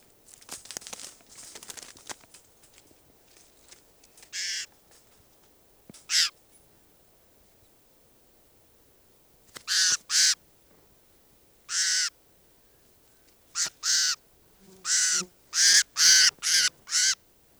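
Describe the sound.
Harsh, high bird calls from a bird being handled, with crackling handling noise early on. The calls come as separate bursts at first, then crowd together in a rapid cluster near the end.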